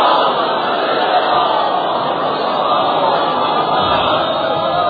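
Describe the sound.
A crowd shouts the Naara-e-Haidari slogan at a Muharram gathering, a loud, dense roar of many voices that holds steady from start to finish.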